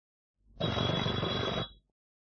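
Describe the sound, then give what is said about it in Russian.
Telephone bell ringing: one rattling, metallic ring burst lasting just over a second, heard alone without talk. “Скорее к телефону.”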